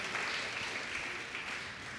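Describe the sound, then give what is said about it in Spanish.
Applause from a church audience during a service: steady, dense clapping that carries on without a break for the whole clip. “Dele un fuerte aplauso a Cristo Jesús.”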